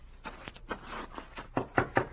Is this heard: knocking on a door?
yes

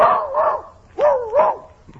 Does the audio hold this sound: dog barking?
yes

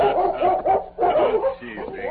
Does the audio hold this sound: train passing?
no

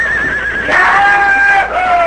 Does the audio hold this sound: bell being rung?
no

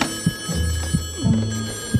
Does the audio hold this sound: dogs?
no

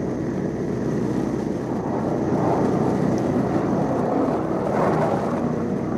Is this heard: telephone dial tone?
no

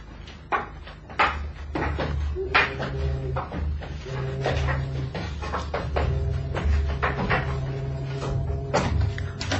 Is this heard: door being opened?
yes

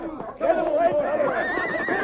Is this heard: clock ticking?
no

